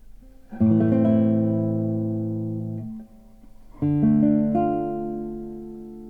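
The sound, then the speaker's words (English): Minor chords sounded on an instrument: a full chord sustained for over two seconds, a short lull, then a second chord whose upper notes shift midway before it rings out, steady and loud with no talking. “Minor chords sound rather sad in comparison.”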